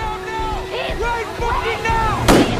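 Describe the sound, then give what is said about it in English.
A single gunshot from an officer's weapon cracks sharply near the end, a brief loud burst over ongoing voices and a tonal background. “The officer shoots Darby in the stomach.”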